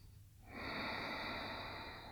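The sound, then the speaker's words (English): One long, deep Ujjayi Pranayama yoga breath taken in a standing forward fold, a steady throat-constricted hissing rush that starts after a brief quiet moment and holds to the end. “Take a couple of breaths here. Deep, powerful Ujjayi Pranayama.”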